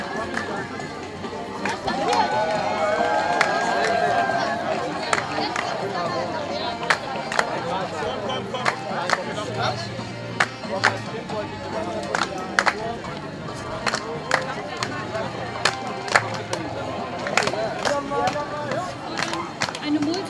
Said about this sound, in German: In der Mitte sind wahnsinnig viele Menschen, die teilweise mehr oder weniger laut ihre Meinung auf die Straße tragen oder einfach den Redebeiträgen zuhören.